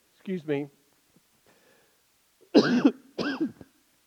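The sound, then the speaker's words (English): A person coughs during a scripture reading, giving a few short, harsh, throaty bursts in two clusters. The clusters are separated by a quiet pause, and the second is louder. “I had to cough.”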